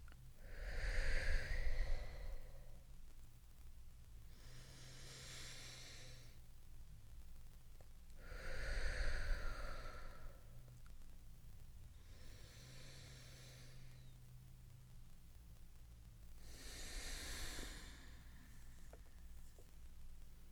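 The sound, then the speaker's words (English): Slow, deep breathing during a guided sound meditation: soft, breathy rushes of air in and out at a calm, even pace, with three fuller breaths among quieter exhales, all faint and alone. “So let's breathe together. 3 times, deep breaths all the way to the top of your head.”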